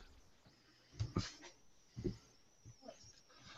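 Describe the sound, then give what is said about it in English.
A dog gives a few short, breathy huffs and whimpers, faint and spaced apart by quiet gaps. “sorry about my dog.”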